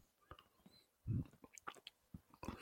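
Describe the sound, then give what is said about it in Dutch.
A piece of chocolate is chewed faintly in the mouth, with many soft, wet clicking chews and one fuller burst of mastication early on. “Oké, ik ga nu een stukje chocola in mijn mond steken.”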